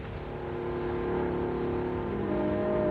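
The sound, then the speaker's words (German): An aircraft engine running in a radio play, a constant low, rough drone with buzzing harmonics that holds steady and swells slightly in loudness, with no voices over it. “Lindbergh spricht mit seinem Motor. Lindbergh speaks to his motor.”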